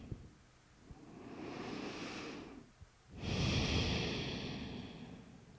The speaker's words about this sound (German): Atme tief ein und aus